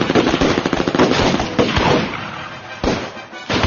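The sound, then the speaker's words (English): A volley of gunfire as companions in a balloon basket shoot at an attacking giant condor: a rapid, loud string of many sharp shots, then a few more separated bursts toward the end. “The companions opened fire in unison.”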